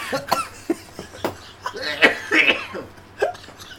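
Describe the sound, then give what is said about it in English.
Someone has a coughing fit after tea went down the wrong way. Several sharp, harsh coughs come in uneven bursts, some doubled up, with short gasping breaths between them. “I'm just having a coughing fit. Sorry, everyone.”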